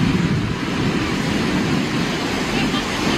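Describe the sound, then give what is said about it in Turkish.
Large ocean waves several meters high crash along the California coast, a continuous loud roar of surf with wind buffeting the microphone. “Dalgaların boyu metrelerce yüksekliğe ulaştı.”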